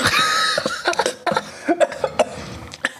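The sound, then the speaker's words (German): Coughing after choking on something swallowed the wrong way: a fit of many short, sharp coughs and splutters, a heavy burst at first, then quicker, scattered coughs trailing off. “Ah, ich habe mich so verschluckt.”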